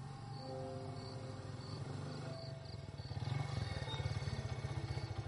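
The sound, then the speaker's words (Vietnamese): A motorcycle arrives: its low engine rumble swells into a louder, pulsing drone during the second half, over a steady background of chirping insects. “Tiếng xe máy khiến cho Thiện bị cắt ngang dòng suy nghĩ.”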